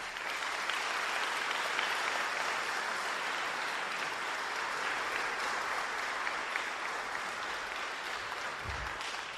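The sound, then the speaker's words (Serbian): Sustained audience applause greeting honored guests at a stage event: a steady, dense wash of clapping that stays even in loudness from start to finish without a break. “ja vas molim da ih aplauzom pozdravite”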